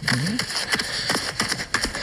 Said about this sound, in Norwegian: Her hører du du løper. Ut av skogen her.